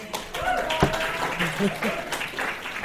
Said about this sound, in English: You've got a round of applause.